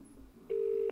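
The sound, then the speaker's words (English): Ring of a telephone set to a normal UK ring: a single steady, mid-pitched tone burst starts abruptly and stops cleanly after a moment, following a faint low hum. “Rings like a normal UK phone.”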